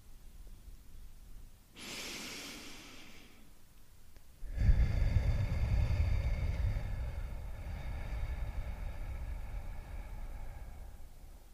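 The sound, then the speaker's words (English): A human breath exercise: one short, airy inhale through the nose, a pause, then a long, soft exhale through the mouth that carries on steadily to the end, with no talking. “Take a deep breath in through your nose and afterwards exhale through your mouth.”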